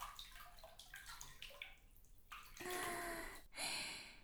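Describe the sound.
Water sloshing and dripping as a person lowers into a hot spring bath in a forest setting: a few faint splashes and trickles, then a louder swell of moving water and a final brief surge.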